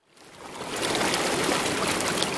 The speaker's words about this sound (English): The Rímac River originates in the western highlands of Peru. It flows through the mountains and past small farming towns like this one.